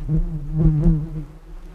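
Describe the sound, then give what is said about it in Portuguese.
A bee buzzing in a steady, low drone whose pitch wavers slightly, fairly loud and alone. “olha a abelha de novo”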